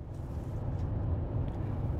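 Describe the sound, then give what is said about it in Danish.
The low, steady rumble of a car driving, heard from inside on the road from DR-byen toward Kirke Hyllinge, a constant even drone with no voices. “Jeg sidder lige nu i bilen på vej fra DR-byen mod Kirke Hyllinge”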